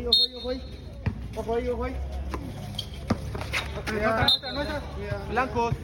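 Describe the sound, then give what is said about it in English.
Basketball bounces from an adult men's game on a floodlit outdoor court at night beside Central America's oldest church: sharp, hollow thuds land at irregular intervals over steady talk and chatter from players and onlookers. “And in the shadow of one of the most historic buildings in this continent, there is, of course, a basketball court.”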